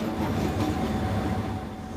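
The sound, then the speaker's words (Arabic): An old train running over a worn-out, dilapidated railway with aged locomotives gives a continuous, steady rolling rumble of wheels on track at an even loudness, with no voices. “فقيادة قطار على شبكات متهالكة وبقاطرات قديمة ليست مهمة عادية”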